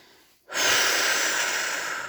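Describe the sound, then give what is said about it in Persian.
A forceful exhalation during a guided breathing exercise: after a brief hush, a strong, breathy rush of air starts abruptly and holds steady for about a second and a half, easing slightly toward the end. “خواهش میکنم یک بازدم محکم انجام بدین.”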